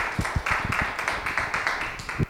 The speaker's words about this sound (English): let's give a round of welcome to LaShawn Harris